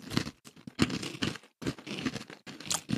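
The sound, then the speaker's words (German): Large salty pretzel sticks crunched while eating, several dry crisp bites in an uneven rhythm with brief pauses between them. “Das sind einfach wie so diese Mini-Brezen von Salzletten oder so ein Scheiß. Ja, genau, in groß. In groß. In sehr groß. Rein in die Fressluke, lass mal Digga. Probieren, ja.”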